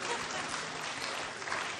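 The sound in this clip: Audience applause breaks out for a happy baby named Forrest, a dense, steady wash of clapping that holds at an even level for about two seconds without clear pauses.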